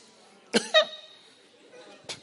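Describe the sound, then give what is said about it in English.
A person coughs: two quick, harsh, throaty coughs in close succession, then a pause and a single softer cough. “You shall not have such a cough.”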